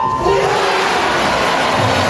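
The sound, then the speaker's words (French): Crowd screaming and cheering for swimmer Léon Marchand during a relay race at the Olympic aquatic centre, a loud, dense, unbroken roar of voices that stays intense throughout. “Au centre aquatique olympique, c'est lui la star. Le public hurle le prénom de Léon Marchand et quand il conclut en tête le premier relais, c'est l'hystérie.”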